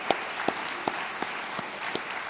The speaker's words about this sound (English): That deserves a round of applause.